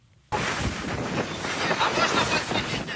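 Wind and waves roar over the stormy Black Sea off Bulgaria at night, around a ship in distress with a hole in its stern; the steady, loud rushing noise starts abruptly and continues unbroken.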